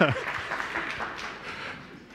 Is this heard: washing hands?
no